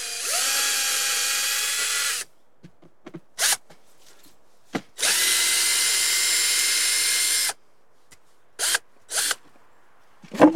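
A cordless drill-driver unscrews a post, whirring in two long, steady runs separated by a few short spurts and clicks, with more brief bursts after the second run.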